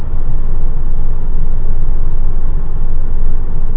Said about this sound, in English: Looks like we've got a rental car I'm passing here.